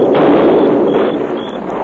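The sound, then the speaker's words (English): A blasting-powder charge exploding under rocks to reopen a blocked pass into a ravine: a loud, sustained rumbling roar of dense noise that holds steady and eases only slightly. “we took some blasting powder and set a charge under those rocks. You blocked up the pass into the ravine. Now we're blasting it open again.”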